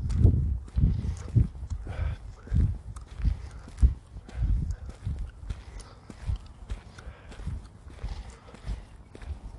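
A person's footsteps while out walking, with a series of soft, uneven low thuds at a steady walking pace.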